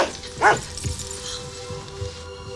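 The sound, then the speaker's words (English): A dog lets out one sharp, loud bark, followed by a few softer, fainter dog sounds, in a scene with dogs and a puppy. “Are these your lovely dogs?”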